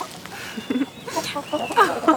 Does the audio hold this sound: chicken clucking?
yes